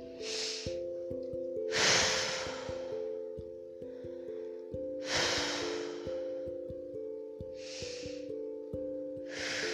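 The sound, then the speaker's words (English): Slow, deep breaths drawn in and let out, a few soft airy whooshes spaced several seconds apart over a quiet sustained musical background. “I'm going to take a couple deep breaths and begin transmission now.”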